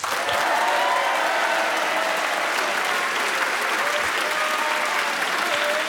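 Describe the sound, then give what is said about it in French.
A studio audience welcomes two young guests with dense, steady applause that holds at an even, loud level throughout, with a few voices lifting faintly above the clapping. “De beaux encouragements de notre public nombreux.”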